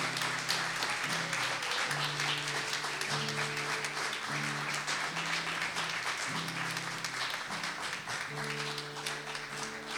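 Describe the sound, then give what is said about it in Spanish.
Audience applause for children at a children's club end-of-year gathering: steady, fairly quiet clapping throughout, over sustained low musical tones that step between notes. “Yo les voy a pedir un aplauso para estos niños valientes.”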